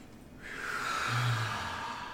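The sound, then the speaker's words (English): A slow, deep breath in during a guided group breathing exercise: one long, steady airy hiss that swells gradually and holds for the rest of the moment, fairly soft and with no voices. “Inhale.”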